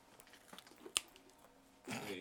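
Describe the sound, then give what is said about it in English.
Microphones touched and handled to make ASMR sounds: faint soft scratching and rubbing, with one sharp tap near the middle and a louder rustling burst at the end. “You know I can make ASMR with these mics? I'm like touching them.”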